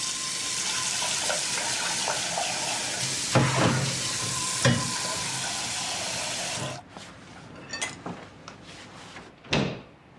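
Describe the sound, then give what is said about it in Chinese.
Scallion oil chicken fries in a kitchen with a loud, steady sizzling hiss for about seven seconds. The sizzle then drops to a quieter crackle broken by a few sharp clinks and clatters. “沈凌在厨房里偷偷地给白海宁做了香喷喷的葱油鸡”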